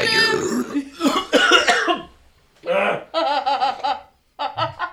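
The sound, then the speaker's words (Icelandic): Harsh coughing after death-metal style inhaled vocals, with a few rough, raspy bursts followed by shorter voiced, laugh-like pulses. “ég get ekki gert heila setningu með núna vegna þess að ég þarf að hósta ógislega mikið eftir það”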